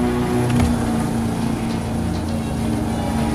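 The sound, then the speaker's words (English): A boat engine drones steadily as the boat is steered toward a beach where people are swimming. The low hum is continuous and even throughout, with no talking. “Philip steers the boat towards the beach”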